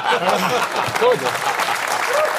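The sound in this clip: Audience applause, dense and steady clapping throughout, with a voice talking over it.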